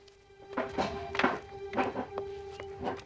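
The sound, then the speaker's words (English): Soft knocks and thuds as a trunk is opened in a playhouse and a chair is pulled up: several dull thunks of varying loudness over a faint, steady hum. “She opens a trunk and pulls up a chair.”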